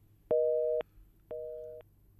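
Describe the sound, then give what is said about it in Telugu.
Telephone busy signal after a phone call was cut off: two steady, level beeps, each about half a second long and separated by a half-second gap, loud and clean over a faint low hum. “Call cut అయింది.”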